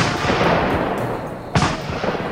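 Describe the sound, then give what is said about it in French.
A single shotgun blast, fired with buckshot during a chase, cracks out sharply about two-thirds of the way through over a steady low rumble, then decays quickly. “Ça y est, il est tombé. Enfin, faut dire que Bernier l'a tiré avec de la chevrotine et ça, au moins, ça pardonne pas.”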